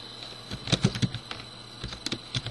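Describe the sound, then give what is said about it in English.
A password is typed on a computer keyboard in faint, irregular keystrokes: a quick cluster of taps, a short lull, then a few more scattered clicks. “Type in the password, and now we see that our system has logged me in.”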